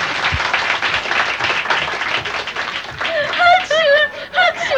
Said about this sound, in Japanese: 拍手来てるもん